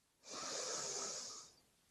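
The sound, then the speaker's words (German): A long exhalation through the mouth during a guided breathing exercise: a soft, airy hiss that swells quickly, holds for over a second, then tapers off, alone with no talking. “halte kurz inne und atme dann durch den Mund aus”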